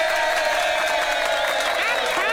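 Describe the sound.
Crowd applause and cheering, with whoops and raised voices over a dense, continuous wash of clapping that stays loud and even from start to finish.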